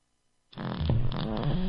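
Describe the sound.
A smart speaker voice assistant plays a fart sound: a single loud, rumbling, sputtering blast that starts suddenly after silence and runs to the end.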